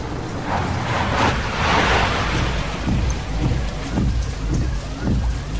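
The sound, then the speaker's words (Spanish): Steady rain falling at night, heard from inside a friend's car: a continuous dense hiss of drops on the body and glass, with a low rumble underneath throughout. “Es de noche y llueve.”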